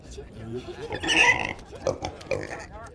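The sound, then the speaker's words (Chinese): Pig grunts and squeals from a young pig come in a few short bursts, loudest in the middle, with voices alongside. “小猪多可爱！”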